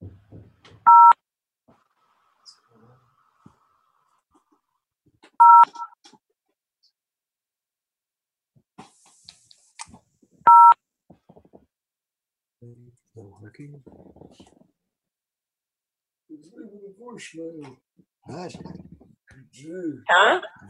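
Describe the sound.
Three short, bright telephone keypad tones sound about five seconds apart over near silence, followed by faint voices and scattered noises toward the end.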